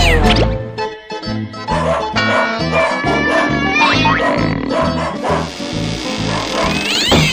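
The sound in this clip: Cats meowing and caterwauling in many overlapping, wavering cries over a steady rhythmic beat, loud and dense throughout.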